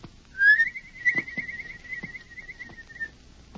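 A human whistled signal opens with a short rising chirp, then holds a long, steady warbling trill at one high pitch for over two seconds. Faint, scattered low knocks sound underneath.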